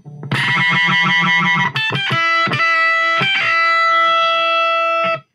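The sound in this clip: A heavily distorted electric guitar plays a fast, chugging rhythm, then strikes a few loud, gritty chords, and the last one rings out for several seconds. No voices are heard.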